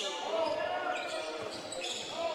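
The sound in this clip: A basketball dribbled on a hardwood court during a Lee Scott Warriors game, many steady low thumps bouncing in an even rhythm beneath a commentator's voice.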